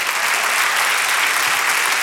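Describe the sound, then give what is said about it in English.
Congregation clapping hands during a church service, a dense, loud and steady wash of applause that continues evenly from start to finish. “Clap your hands like you're catching this.”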